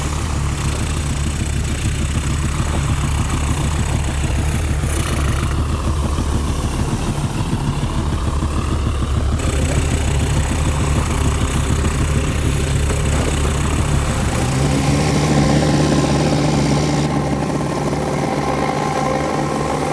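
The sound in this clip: A voice imitates aircraft engines for an animated film with a continuous, loud, buzzing drone made by mouth, holding steady throughout with shifts in tone near the middle and end.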